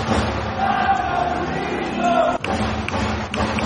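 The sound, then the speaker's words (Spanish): Baseball stadium crowd cheering on a batter: a steady, broad wash of crowd noise with a sharp bang partway through. “Y el público alentando a Jesús Favela.”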